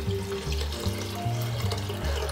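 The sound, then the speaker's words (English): Water runs into a pot of sorrel leaves, a steady splashing rush over a low resonant hum that shifts in tone every half second or so, constant in loudness with no talking. “Right, I've got my sorrel leaves in the pot now. Okay, so I'm gonna add water.”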